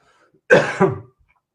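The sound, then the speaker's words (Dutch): A short, harsh cough in two quick bursts, heard alone with no talk, from a speaker during a lecture on the brain. “Sorry voor het hoesten eventjes.”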